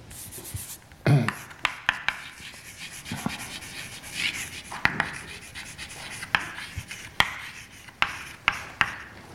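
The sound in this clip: Writing on a board during a physics lecture: scratchy strokes broken by many sharp taps in an irregular rhythm, with no speech.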